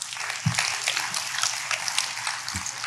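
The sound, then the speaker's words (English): An audience claps together, a moderate, even patter of many hands lasting the whole stretch, with a couple of soft low thumps mixed in. “Let's clap for that.”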